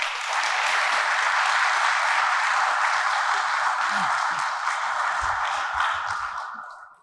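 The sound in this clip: Sustained audience applause welcoming a speaker forward to give a reflection at a Catholic parish gathering, a dense, even clatter of many hands that holds steady for several seconds and then tapers off at the end.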